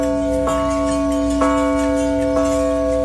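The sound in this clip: A bell tolls three slow, evenly spaced strikes, each struck note ringing into a sustained, steady metallic tone that carries on between the hits over a faint background hiss.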